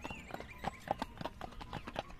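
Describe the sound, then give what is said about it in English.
A gray pony's hooves clip-clop on a smooth pike road. Many crisp, hollow knocks fall in a quick, even trotting rhythm, and the sound is fairly soft. “he was a very merry gray pony, and he loved to go clippity-clippity-clop.”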